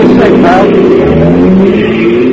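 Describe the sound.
A taxi engine revving as the cab pulls away at night in pursuit of a black sedan; a loud, steady motor drone that climbs a little in pitch as it accelerates.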